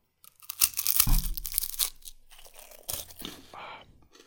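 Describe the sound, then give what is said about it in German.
Teeth bite into a Knoppers wafer bar with a sharp, crisp crackle of wafer, followed by a few softer crunching chews that fade out, with no talking. “Also, Achtung, Brot. ich beiß jetzt von meinem Knoppers.”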